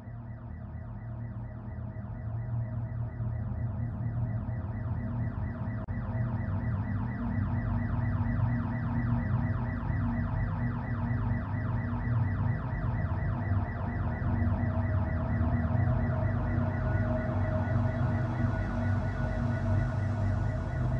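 A triggered alarm bell ringing without pause: a steady, rapidly pulsing electronic ring at constant loudness for about twenty seconds, with no voices.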